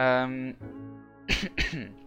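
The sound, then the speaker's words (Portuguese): Coughing from someone choking on butter biscuits: a brief voiced sound, then two short, harsh coughs in quick succession. “Não, estou-me a engasgar porque estive a comer umas bolachinhas de manteiga.”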